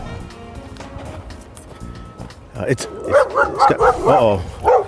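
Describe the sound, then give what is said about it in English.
A fenced-in dog barks at someone walking in the woods, letting out a rapid series of loud, sharp barks after a quieter opening stretch. “there's a dog after me, but I'm gonna be all right because this dog is fenced in.”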